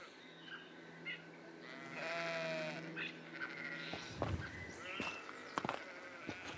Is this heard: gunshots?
no

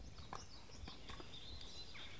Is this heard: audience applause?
no

